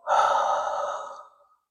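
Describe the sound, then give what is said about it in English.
One long, deep breath during a Reiki guided meditation, an airy, sighing rush of air that starts fairly loud and gradually fades away. “want you to take a deep breath in and out”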